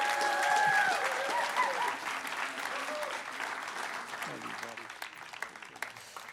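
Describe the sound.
Applause from a church audience welcoming a guest speaker at a New Year's Eve service: dense, steady clapping that starts loudest and slowly thins out.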